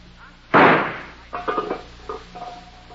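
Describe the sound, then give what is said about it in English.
A single sharp gunshot bursts out loudly. Voices talk afterward. “Will you stop shooting?”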